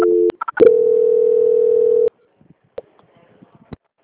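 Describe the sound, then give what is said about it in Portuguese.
Telephone line tones play during a call transfer: a few short beeps lead into a steady tone lasting about a second and a half, followed by near silence broken by faint clicks. “Só mais um minutinho na linha que eu vou fazer a transferência.”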